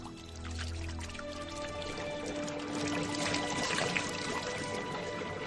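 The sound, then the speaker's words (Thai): Water drawn from a well behind a hermitage being poured to fill a supply for thirsty animals: a steady, continuous rushing pour that stays loud and even throughout, heard on its own. “ก็ลงมือตักน้ำจากบ่อหลังอาสมมาเติมไว้มิให้สัตว์ทั้งหลายต้องกระหายรอนาน”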